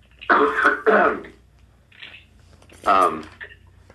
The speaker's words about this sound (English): I have something caught in my throat.